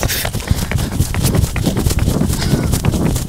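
Footsteps of a person sprinting a 40-yard dash form a fast, even run of many hard strides over constant wind buffeting.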